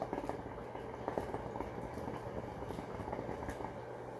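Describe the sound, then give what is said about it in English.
A hookah water pipe bubbles, giving a faint, continuous gurgling with soft irregular pops, steady throughout and without talk. “And that is the sound of my newest gift, if you heard that. I received a hookah in the mail.”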